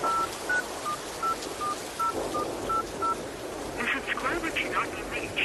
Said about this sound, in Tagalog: Sandali lang po at susubukan kong tawagan si tatay.